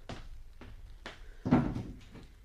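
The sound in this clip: A door being closed in an Arabic radio drama of the Thousand and One Nights, a few soft knocks and creaks followed by a louder, heavier thud, then a lighter knock.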